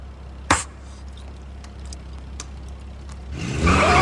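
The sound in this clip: A car revving as it reverses toward a shop window. A sharp click comes early over a quiet idle, then a loud, rising engine roar fills the final moments.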